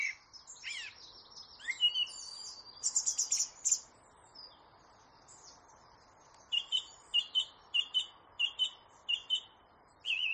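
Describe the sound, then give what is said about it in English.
A song thrush sings varied chirps and quick trills, then a run of many short, high, identical notes repeated in an even rhythm. The song is fairly faint. “Do you hear the repetition? That's the classic thing for a song thrush. It'll do loads of different weird and wonderful sounds, but it will repeat the phrases.”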